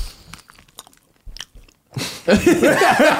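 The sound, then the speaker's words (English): People crunch and chew on partly thawed food, with crisp bites and wet chewing clicks coming in scattered bursts, then voices talk over continued eating. “Our listeners are like, these fucking assholes are eating again. Do you guys want some? This is some ASMR shit.”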